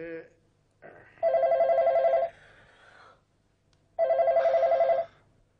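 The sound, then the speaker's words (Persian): A telephone bell rings in two steady, loud bursts of about a second each, separated by a pause of near silence. “بابا بچه چرا پس تلفن رو بر نمیدارین عزیزم؟”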